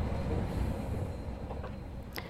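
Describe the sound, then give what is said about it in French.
Low, continuous rail rumble fills the Gare Montparnasse railway station near its moving walkway, with a few faint, high squeals toward the end. “On entendait donc le célèbre message du tapis roulant ou trottoir roulant, vous me direz comment il faut dire, de la gare Montparnasse.”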